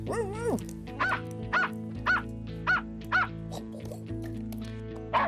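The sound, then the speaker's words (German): Search dogs working through disaster rubble for survivors give a whimpering yelp and then a run of short, sharp barks at a steady pace, set against sustained background music. “Spürhunde suchen das Gebiet nach Überlebenden ab.”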